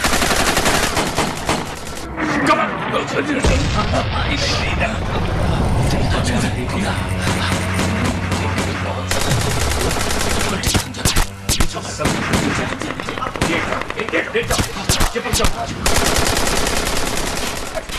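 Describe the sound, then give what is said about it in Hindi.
Automatic machine gun fire from enemy forces during a battle: loud, rapid bursts of gunfire run through the whole clip without a break, layered over a dense, rumbling background. “शत्रु automatic machine gun से गोलियों की बौछार कर रहा था।”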